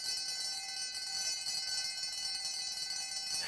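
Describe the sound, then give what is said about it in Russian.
A school bell rings at the end of a break, giving a steady, high-pitched electric ringing that holds evenly and stays fairly faint throughout. “Звонок. Все на свете кончается, даже большая перемена.”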